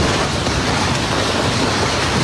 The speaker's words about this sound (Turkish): Dev dolu tanelerinin gökten adeta taş gibi yağdığı anlar başkent Asunción'da kayda geçti.